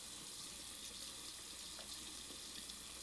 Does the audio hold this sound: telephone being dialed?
no